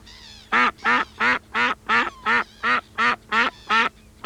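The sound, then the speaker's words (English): A duck quacks ten times in an even, steady rhythm, each call loud and nasal with short gaps between, with no other sound. “Number three was a duck.”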